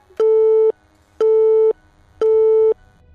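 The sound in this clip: Telephone busy tone after a call is hung up: three identical steady electronic beeps of about half a second each, evenly spaced with silent gaps, loud and clean.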